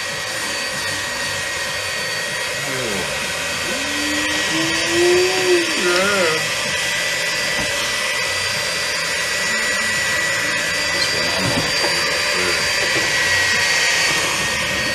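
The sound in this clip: An electric mixer whisks with a loud, continuous, steady whir that barely changes over its length, and a voice is briefly heard over it early on.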